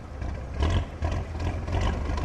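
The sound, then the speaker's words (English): Steady low drone of a small motorboat engine on the Amazon River, a constant deep hum with slight surges in loudness and no voices. “We take a small motorboat to an acai farm to see how it's harvested.”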